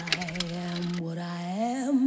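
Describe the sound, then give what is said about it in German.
Coins drop into a jukebox with a few quick metallic clinks and a button click, then music starts playing. “Münzen rein, Knopf gedrückt.”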